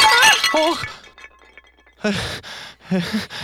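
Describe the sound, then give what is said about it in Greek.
A clay water jug falls and breaks, a brief crash and clatter of shards set among voices, followed by a short lull with faint clinking before talk resumes. “Πήγαινα στη βρύση για νερό, αλλά τώρα, πω, κοίτα, η στάμνα μου έσπασε.”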